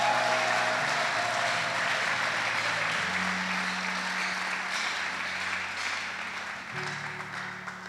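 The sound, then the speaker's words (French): A church audience applauds for the Lord in steady, dense applause that holds for about eight seconds and eases slightly toward the end, with sustained low tones running underneath. “Est-ce qu'on peut acclamer pour le Seigneur?”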